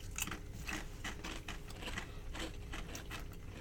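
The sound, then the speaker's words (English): Faint crunching of barbecue-flavoured ruffled potato chips being bitten and chewed, with many crisp, irregular crunches in a steady chewing rhythm. “So this is a ruffled chip. Yeah. Let's see how it tastes. It looks like barbecue.”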